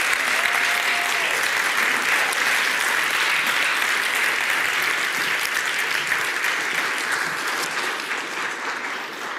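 Sustained audience applause greets panelists coming up front at a church gathering, a dense, even wash of many hands clapping that holds steady for nearly ten seconds and eases slightly at the end.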